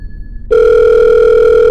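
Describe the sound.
A telephone line tone on a call being put through a switchboard: after a faint, thin tone, a loud, steady electronic hum starts abruptly and holds level to the end.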